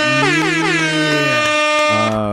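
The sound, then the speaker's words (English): Air horns blare as a celebratory drop for a birthday shout-out on a sports talk segment: loud, brassy overlapping blasts that shift in pitch, a brief break, then a final lower blast. “can we get some air horns”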